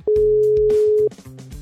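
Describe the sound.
A telephone ringing tone during a radio call-in: a single steady, mid-pitched one-second ring, with talk continuing beneath and after it.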